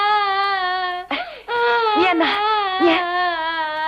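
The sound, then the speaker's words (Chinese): A young child cries in sustained, wavering, high-pitched wails, with a couple of brief catches and sobbing breaks between the long tones. “莫哭，别哭了。”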